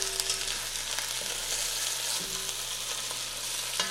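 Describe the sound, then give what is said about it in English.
Meat shanks browning in a pan sizzle with a steady, dense crackling hiss that holds even throughout, with no talk. “My shanks are fairly browned.”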